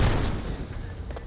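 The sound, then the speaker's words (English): A powerful flash grenade explodes at a truck during a police standoff. A loud, broad boom at the very start fades into a rumbling tail. “Without warning, officers lob a powerful flash grenade at Morgan's truck.”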